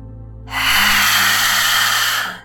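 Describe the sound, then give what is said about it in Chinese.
A deep, forceful breath taken during yoga lion's breath practice: a loud, sustained airy rush of about two seconds over a low, steady background drone. “第十次深深的吸气。不断的去展现你的勇气。”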